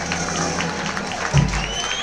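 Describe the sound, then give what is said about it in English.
An audience applauds and cheers for a band: a steady wash of clapping and crowd noise, with a brief low thump partway through. “Big round of applause for our first band out of Jim Rich. Let's give it up for him.”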